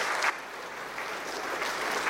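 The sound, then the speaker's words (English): An audience gives a round of applause: steady, bright clapping from many hands at a moderate, even loudness, with a brief sharper peak near the start. “Let's give him a little round of applause as well.”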